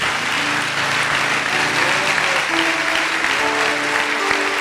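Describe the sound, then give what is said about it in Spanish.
Loud, continuous audience applause at a religious gathering, a dense wash of clapping hands that stays strong from start to finish with no voices over it. “Dele un aplauso más fuerte a Él.”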